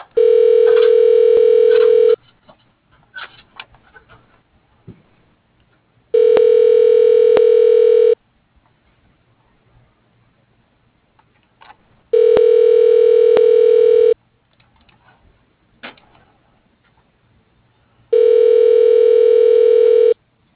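Telephone line tones while an office phone connects to an extension: four long, steady ringing tones of about two seconds each, evenly spaced by roughly four seconds of near silence with faint crackle.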